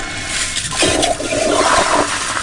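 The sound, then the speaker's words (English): A motion-sensor toilet in a restroom flushes with a loud, steady rush of swirling water that gurgles and churns throughout, with no voices. “The toilets flush using motion sensor technology as well.”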